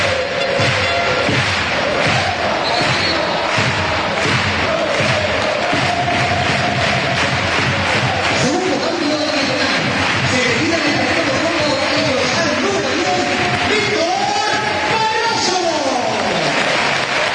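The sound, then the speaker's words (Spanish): Crowd cheering and applauding at a football match in the new Colombino stadium, a loud, steady roar of clapping and shouting voices that carries on without a break from start to finish. “Ahí está el público, así suena el nuevo colombino.”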